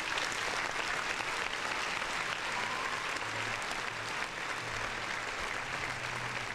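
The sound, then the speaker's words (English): Applause from an audience, a steady, dense wash of clapping that holds at an even, fairly faint level from start to finish. “Round of applause.”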